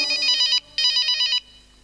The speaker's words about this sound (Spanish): ¿Qué es? El teléfono sonó.